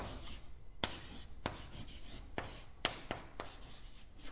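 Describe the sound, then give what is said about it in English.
Writing on a board: a steady scratchy rubbing of strokes, broken by several sharper taps as each new stroke lands, moderately quiet and with no voices. “And that is, Jesus had, let me just write it right over here somewhere.”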